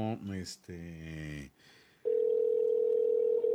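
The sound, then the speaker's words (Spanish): A steady telephone line tone while calling a shop's number, loud and unbroken for over a second after a short stretch of voice and a brief pause. “entonces le vamos a volver a marcar. Ya tengo el número de la tienda. Vamos a llamarle”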